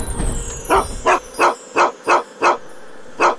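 Dog barking in a run of seven short, sharp barks at a fairly steady pace, with a longer gap before the last, following a brief burst of low rumbling noise at the start.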